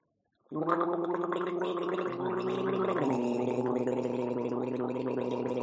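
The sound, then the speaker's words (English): A person gargling water, a voiced, bubbling gurgle that starts abruptly and holds steady and loud for about five seconds, with its pitch shifting partway through. “Take a sip of water. This is all staying in. Can I get it's a gargle? Be staying in. Let's gargle.”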